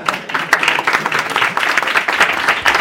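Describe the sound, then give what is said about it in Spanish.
Applause from an audience at a comic convention panel, a dense, steady patter of many hands clapping continuously throughout. “No sé por qué, pero un aplauso para Carmix, ¿por qué no?”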